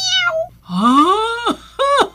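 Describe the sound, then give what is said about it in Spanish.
A cat meowing three times, loud and close: a short first call, a long drawn-out middle meow that rises in pitch, then a brief final one, with no talk. “¿Y a santo de qué viene toda esa bichería? Porque yo lo único que entendí fue miau.”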